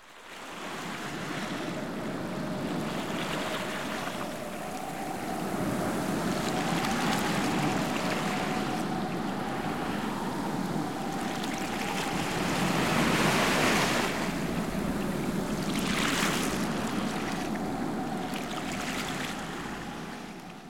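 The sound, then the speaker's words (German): Coast guard boat setting off on the sea, its motor holding a steady hum beneath rushing surf and gusting wind that swell and ease across the stretch. “Die Männer von der Küstenwache fahren mit ihrem Boot los.”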